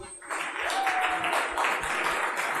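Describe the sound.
Audience applause welcomes a speaker to the stage, a dense, steady clapping that swells in quickly and then holds at an even level.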